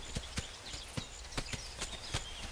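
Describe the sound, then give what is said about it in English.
Hooves of a horse walking off up a racetrack, a steady, unhurried series of crisp clip-clop strikes. “Nolan takes off the halter, giving Stripes a quick stroke as he lets him walk off up the racetrack”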